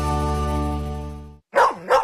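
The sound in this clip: Two loud dog barks in quick succession ring out right after a sustained music passage cuts off abruptly.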